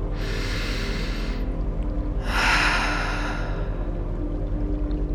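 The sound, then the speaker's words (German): Two long, breathy airflow sounds from a deep breath taken during a guided meditation, separated by a short pause. A steady low background drone runs underneath. “Tiefer Atemzug in dieses Gefühl hinein.”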